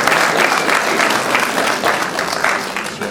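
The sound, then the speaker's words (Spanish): Applause from the audience at a school graduation ceremony: a steady, dense patter of many hands clapping continuously and fairly loudly throughout. “Vamos a rendir un voto de aplauso”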